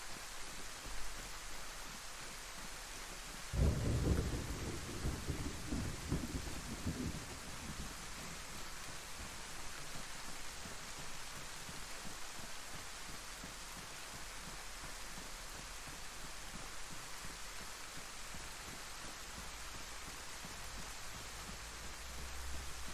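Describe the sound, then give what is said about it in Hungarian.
A thunderstorm with steady, soft rain hissing throughout and one low, rumbling roll of thunder near the start that fades after a few seconds; quiet overall, with no voices. “A villámlós, dörgős mindenségből.”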